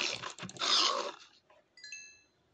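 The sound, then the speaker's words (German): Small dog attacking in a video game, a harsh burst of snarling and growling followed by a short, high whine after a brief pause. “Kleiner hässlicher Hund, hast mich gerade angegriffen.”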